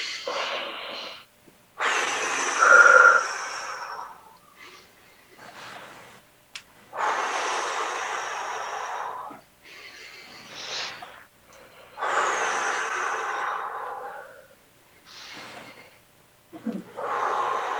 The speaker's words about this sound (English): We're going to lift our hands over our head on an inhale, and then we're going to release on an exhale, and I'm going to hit the microphone every time.